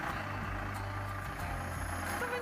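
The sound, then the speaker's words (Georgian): A bus idles at a bus station, its engine a steady low rumble with faint higher tonal hums layered over it, quiet and continuous throughout. “ეს ავტოსადგურია, ეს კი ჩემი ავტობუსი.”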